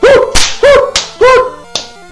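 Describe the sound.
Three swooping, squawking creature cries, each followed by a sharp slap-like whack, as a cartoon monster's mud slap attack strikes several rock creatures in a Pokémon battle; the final hit lands alone near the end.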